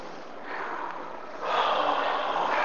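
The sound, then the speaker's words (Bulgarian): A long, slow exhalation through the mouth during a guided breathing exercise: a soft, breathy rush of air that swells louder partway through and holds steadily to the end. “Вече по-плавно и по-продължително. Корема, гърдите, ключиците и продължително издишване. През устата.”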